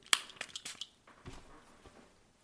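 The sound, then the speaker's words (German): Short hissing bursts of The Ritual of Sakura laundry deluxe refreshing spray being pumped from its bottle: a few quick, faint sprays close together, followed by quieter rustling. “Das ist Laundry Deluxe Refreshing Spray The Ritual of äh, Sakura.”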